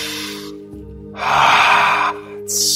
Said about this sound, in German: Atme mal tief ein.